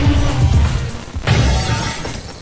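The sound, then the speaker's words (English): Glass shatters into many pieces: a dense, loud crash of breaking glass that keeps scattering and tinkling for the whole clip. “That's the sound of glass breaking into a million pieces.”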